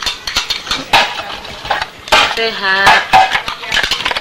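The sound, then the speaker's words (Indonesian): Clatter of pots and utensils while vegetables cook in a home kitchen: many sharp clinks and knocks at an uneven pace, with people talking throughout. “Ini aku lagi masak sayur nih.”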